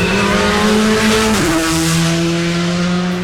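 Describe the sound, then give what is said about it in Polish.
Rally car engine at full throttle on a straight right after a corner during a rally stage, a loud sustained roar whose pitch drops sharply once midway at a gear change and then holds steady. “A potem po zakręcie od razu prosta, czyli gaz do dechy. Od razu prosta i gaz do dechy.”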